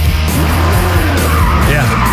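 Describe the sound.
Car tires skid and squeal during street stunt driving. The loud, continuous screech wavers up and down in pitch over a heavy engine roar.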